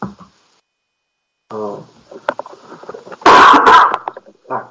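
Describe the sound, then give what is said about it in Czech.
A single harsh, explosive cough bursts out loudly and briefly, standing out after quieter breathy vocal sounds. “trošku kašlu”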